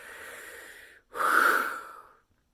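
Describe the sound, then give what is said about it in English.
During a guided meditation, a person breathes with a softer breath and then a louder, forceful, breathy exhale lasting about a second, with nothing else heard. “Deep breath, bring oxygen into the spine. Exhale sharply.”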